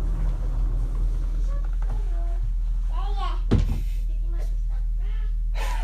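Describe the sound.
A door is shut after a goodbye: one dull thunk partway through, set among people talking before and after it.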